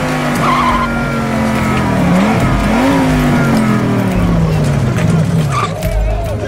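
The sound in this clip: Tires skidding and squealing as a car drives fast, its engine roaring loudly and continuously throughout, with wavering pitch sweeps as the car swerves.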